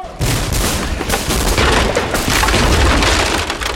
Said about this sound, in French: Une effroyable détonation éclata sur la barricade.